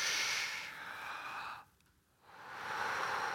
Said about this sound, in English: Breathe in through the belly, then through the chest. Fill up the lungs.